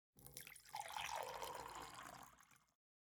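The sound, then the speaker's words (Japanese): Liquid, a magic potion, poured into a glass: a steady splashing stream runs for over two seconds, then tapers off. “魔法の薬をグラスに注いで”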